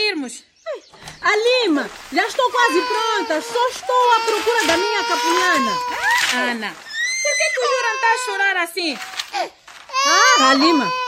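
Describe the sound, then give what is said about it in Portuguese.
A baby cries at length with loud, wavering wails rising and falling in pitch, broken by short gasping pauses for breath. “Chora muito. Mas será que ele tem fome? Não, mamou bem.”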